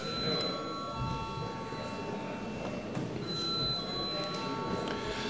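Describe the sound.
Bell rung in a parliament chamber to call a vote, a continuous, loud, rattling ring with steady high tones held throughout.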